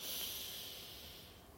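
A slow, deep inhale through the nose during a guided relaxation breathing exercise: one quiet, steady, airy hiss with no voices, easing off slightly toward the end.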